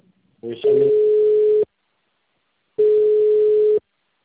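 A telephone busy signal follows a dropped call, with two long, even tones of about one second each separated by silence, after a brief burst of sound at the start.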